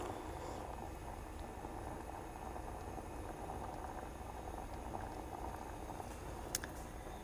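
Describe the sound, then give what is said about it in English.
Water boiling in a pot on a stove gives a steady, quiet, continuous bubbling hiss that holds even throughout, with one brief tick near the end. “when it's boiling, then I'm going to simmer for 20 minutes.”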